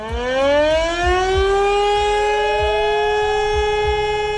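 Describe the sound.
A civil defense warning siren sounds on warning day, its loud wail rising in pitch and then holding a steady, piercing tone, with a rhythmic low thumping beneath it.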